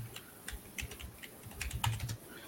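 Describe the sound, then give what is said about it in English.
Quiet, irregular clicking of typing on a computer keyboard, many light keystrokes in uneven bursts with no voices. “Let me go over here and get this link. My gosh, I can't type.”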